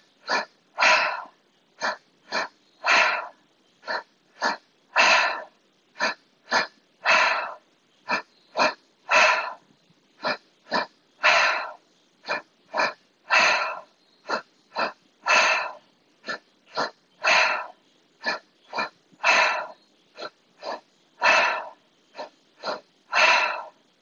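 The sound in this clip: Deep rhythmic breathing in a guided breathwork exercise, the air pushed out through the mouth: many forceful, breathy bursts in a steady, even pattern for about 24 seconds, with short quiet gaps between them and no talk.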